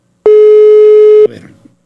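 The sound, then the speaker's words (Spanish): A telephone busy signal while calling a colleague: one steady, loud, mid-pitched tone lasting about a second, then stopping abruptly with faint rustling noise after. “A ver, Corina, te estoy marcando.”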